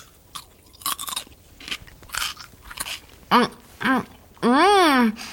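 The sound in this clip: Crisp crunching bites and chewing of fresh, juicy orange-coloured food, many sharp crunches in an uneven rhythm over about three seconds, followed by voices speaking.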